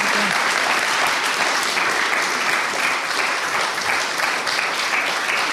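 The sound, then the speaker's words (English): Applause from an audience at a Christian worship gathering, following a testimony: dense, steady clapping that fills the whole clip at an even, loud level without a break. “Let's give her a round of applause.”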